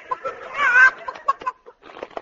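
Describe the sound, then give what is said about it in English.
A horse named Leghorn clucking like a chicken: a few short, nasal clucks around a longer squawking cackle, followed by more scattered clucks. “Steady, Leghorn. Steady. Leghorn? That's a funny name for a horse. Yes, well, he has a mental block. He thinks he's a chicken.”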